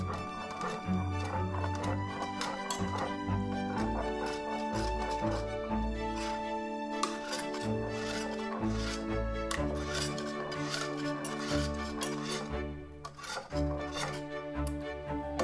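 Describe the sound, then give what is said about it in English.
Whisking sugar and butter together into cookie dough, a rhythmic clatter and scrape of the whisk against the bowl that keeps going in steady repeated strokes. “If you need to whisk some more until your sugars and butters are all incorporated and smooth, feel free to pause here, young chefs.”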